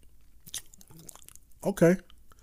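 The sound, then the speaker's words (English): Chewing a forkful of fried green tomato with sauce: soft, moist mouth sounds and a few quiet bites, followed by a brief voiced murmur. “We're going to go into this fried green tomato. Just going to get a fork, get a little piece. Got a nice bit of sauce on it, and we're tasting”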